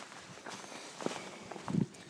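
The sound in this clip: Footsteps of a person walking on a sunny, cold day on a hike toward Housesteads Roman Fort near Sycamore Gap: a few soft, irregular steps that grow slightly louder toward the end, with no voices.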